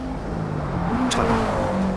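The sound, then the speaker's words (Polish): A race car leaves the pits at night in a racing video game, its engine a continuous steady drone that shifts slightly in tone, with a brief hiss partway through and no voices. “No i tutaj w Towarzystwie Gwiazd nasz samochód opuszcza pit stop.”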